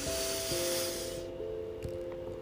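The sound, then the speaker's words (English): A slow breath out during a guided breathing exercise makes an airy hiss that lasts about a second and then fades away, over a faint steady tone. “breathe out the virus. Breathe the oxygen in, breathe out the virus.”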